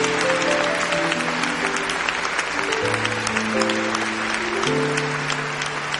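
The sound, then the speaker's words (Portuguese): Applause from an audience at a Catholic Mass after the Gospel reading: dense, steady clapping that holds at an even level throughout, with sustained tones running underneath. “Vamos aplaudir a palavra.”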